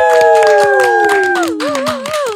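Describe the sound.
Clapping and cheering from an audience welcoming a guest: quick, sharp claps run throughout under a drawn-out whooping cheer that slides down in pitch.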